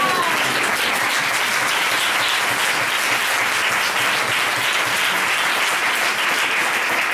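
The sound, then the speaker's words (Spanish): Audience applause fills the whole stretch: dense, steady clapping from a crowd that holds an even loudness from start to finish, with no voices standing out above it. “Yo no sé por qué aplaudo, pero a mí me gusta.”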